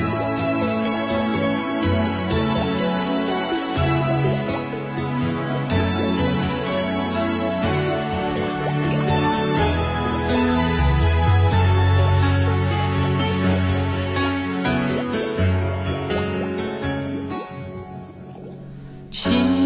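A Mandarin pop song plays: full, steady music with sustained tonal layers over a rhythmic low end, holding a fairly even level before fading out near the end.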